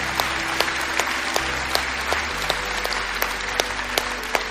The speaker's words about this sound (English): Bridge family, can we put our hands together and welcome people into God's family today?